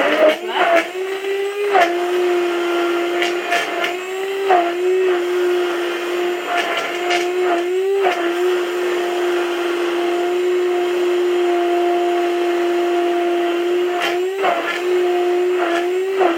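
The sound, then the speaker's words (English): A stick blender runs at its fastest speed, giving a loud, steady motor whine with a strong hum that briefly dips and wobbles in pitch a few times. “And that should be about done now, so I'm just going to separate the stick from the blender part, switch it off at the wall, and put the blending stick in the sink for washing.”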